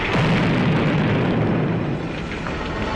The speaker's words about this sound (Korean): 그는 수류탄 묶음을 무한 궤도에 끼워놓고 도화선을 잡아당겼다.